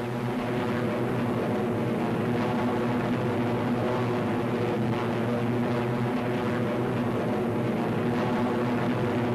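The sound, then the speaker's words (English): Steady droning of Thunderbolt fighter planes' engines as they climb over the channel, a dense, continuous hum that holds constant throughout. “The Thunderbolts climb steadily over the channel into hostile skies.”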